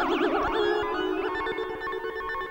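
Sine-wave LFO on a Yamaha DX7 synthesizer makes a bell-like tone warble with a strong, smooth vibrato at first, then a steadier sustained note with another brief wobble.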